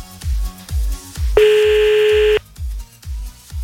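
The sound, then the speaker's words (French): A telephone tone sounds as a call is redialed during a prank call: one sustained beep lasting about a second cuts across a steady, pulsing low thump that repeats before and after. “Oh putain, bon on rappelle encore un coup là, c'est parti, hop là.”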